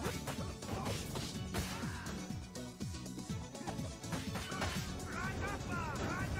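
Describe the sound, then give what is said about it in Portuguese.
A box breaking in a video game gives several loud crunching smashes and thwacks, set over dense, busy game audio with tonal, music-like layers throughout. “Basicamente, só pra você sentir bem que você quebrou ali uma caixa.”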